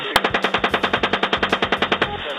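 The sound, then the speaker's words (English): Machine gun fire from U.S. forces in a military video from Iraq rattles out as one sustained, loud burst of many rapid, evenly spaced shots, opening with a single sharp crack and keeping a steady mechanical rhythm throughout. “The U.S. military has confirmed the authenticity of their own video showing U.S. forces indiscriminately firing on Iraqi civilians.”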